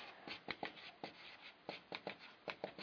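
Writing on a board during a lecture produces many short, quick strokes in an uneven rhythm, fairly faint and with no talk over them.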